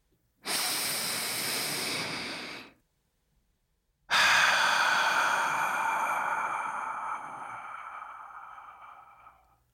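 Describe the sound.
A deep breath: a steady, hissing inhale, then after a short silence a longer, louder breathy exhale that slowly fades away, heard alone.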